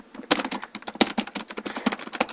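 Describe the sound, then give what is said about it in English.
Rapid clicking of a computer keyboard as someone types a PowerShell command: many crisp keystrokes in an uneven, fast rhythm, heard alone. “Oops, typed that all wrong, so it won't turn anything useful.”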